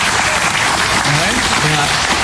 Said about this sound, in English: Round of applause. All right.